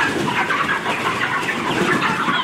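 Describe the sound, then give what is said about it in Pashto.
A dense, continuous chorus of clucking and chirping rises from 15,000 broiler chickens at a poultry farm in Arghandab district, Kandahar. The noise is steady and busy throughout, with no talking. “د کندهار د ارغنداب ولسوالۍ د میانجوی کلی د چرګانو دی فارم کې دا مهال 15,000 غوښین چرګان تر روزنې لاندې دي.”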